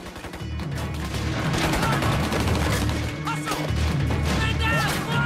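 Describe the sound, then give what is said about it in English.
Soldiers and militia trade gunfire through smoke in a firefight. Many loud cracks and crashing bursts run almost nonstop, with voices faintly in the mix. “Soldiers and militia trade fire through the smoke.”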